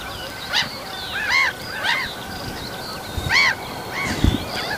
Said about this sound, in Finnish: Naurulokit on siinä mikkien päällä. Siitä lentää yli.